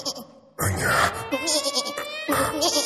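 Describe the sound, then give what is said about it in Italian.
A voice imitating a young goat's bleat: a loud, wavering, quavering cry with tremulous pitch. It starts after a brief quieter opening and pulses on in a few stretches. “Ma tu sei un capretto.”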